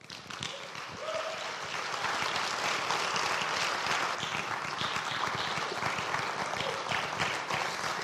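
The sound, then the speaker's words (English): Sustained applause from a church audience welcoming a man to the front during a morning service: dense, even clapping that builds quickly and holds steady and full throughout, with no talk over it. “So will you put your hands together and welcome Mark Gatzke as he comes up this morning.”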